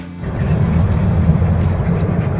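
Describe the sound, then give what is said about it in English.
A car driving on a road between cities gives a steady, loud low rumble of engine and road noise. The drone holds evenly throughout with no talk. “We are live streaming from driving in the car down to Pattaya from Chiang Mai this morning.”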